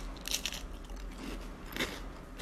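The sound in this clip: Flaky leaf pie pastry is broken along its leaf veins and eaten. Two sharper crisp snaps stand out against faint, crumbly crackling and crunching. The sounds are quiet and no one speaks.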